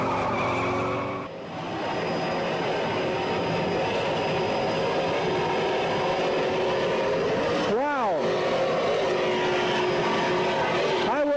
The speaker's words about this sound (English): This spectacular footage captures the flavor of offshore racing